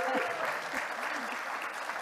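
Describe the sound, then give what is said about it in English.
Audience applause at a corporate panel event as a guest speaker is welcomed: dense, steady clapping that fills the whole moment with no break or fade. “Let's give Kirsten a round of applause.”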